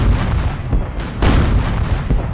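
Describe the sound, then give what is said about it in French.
Artillery fire from British shells striking the royal palace in Zanzibar in 1896: a loud, dense rumbling roar broken by a few heavier blasts, the strongest past the middle. “les premiers obus anglais tombent sur le palais royal.”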